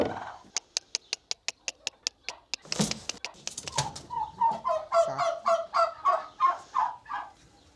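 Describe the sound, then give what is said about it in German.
Turkey hens nesting and laying in a feed dispenser make a quick run of sharp clicks, then a short rustling flurry, followed by a long string of repeated mid-pitched clucking calls. “Christine ganz gut, wo ihre Puten die Eier hinlegen. Einige bevorzugen momentan den Futterautomaten und lassen sich nur ungerne vertreiben.”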